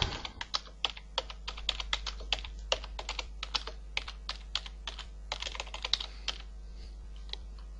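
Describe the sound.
Typing on a computer keyboard to enter a phrase: many quick, sharp key clicks in an uneven rhythm with occasional pauses, fairly quiet over a steady low electrical hum.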